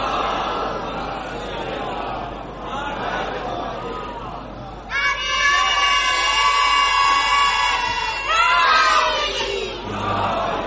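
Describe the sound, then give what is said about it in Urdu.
A crowd recites salawat, blessings on Muhammad, in unison. Loud massed voices chant sustained phrases that surge in waves, with a few higher, more piercing passages standing out. “میں کیا بولوں, سلوات پڑھے محمد والے.”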